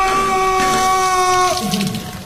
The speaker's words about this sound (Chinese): 连忙跑去打开了水龙头